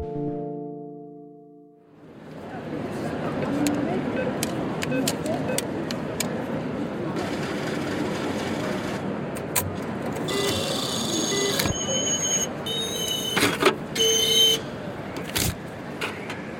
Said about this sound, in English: here I am at Victoria Station, just around the corner from the Telegraph offices